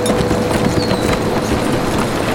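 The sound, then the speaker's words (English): A horse's hooves clip-clop as it is ridden uphill toward a ridge, with steady, rapid hoof beats over a dense, constant wash of background noise. “He turned his horse, riding uphill, disappearing on the other side of the ridge.”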